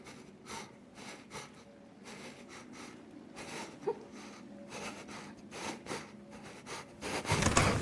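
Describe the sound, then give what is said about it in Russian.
A man lying in bed and crying breathes raggedly in many uneven, shuddering breaths, faint and irregular, with a louder rustle at the end. “Он прерывисто дышит.”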